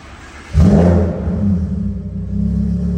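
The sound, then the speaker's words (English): A supercharged 2015 Lamborghini Huracan with an ESS supercharger revs hard, bursting suddenly into a loud, deep roar that settles into a sustained low engine rumble. “Today, we are in a 2015 Lamborghini Huracan. We installed an ESS supercharger on this one. It gives it about 40% more torque and about 180 more horsepower.”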